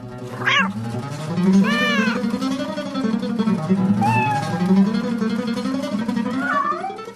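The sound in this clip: Cats meow in drawn-out, wailing calls that rise and fall in pitch, loud and nearly continuous, with several meows following one another.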